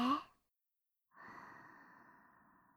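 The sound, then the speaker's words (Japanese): Slow breathing during a calming in-and-out breathing exercise: a short breath at the start, a moment of silence, then a long, quieter exhale with a slight voiced tone that slowly fades away. “落ち着いていくから。吸って吐いて。”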